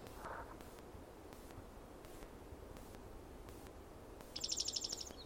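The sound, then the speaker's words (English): A bird sings softly: a faint, brief trill of rapid high notes near the end, above a steady low hiss. “bird singing softly”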